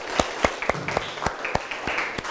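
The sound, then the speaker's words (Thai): Classmates clapping their hands for a fellow student in a lesson: faint, fairly even claps in a steady run of many sharp hits. “ปรบมือให้เพื่อนหน่อยครับเก่งมากๆเลยครับ”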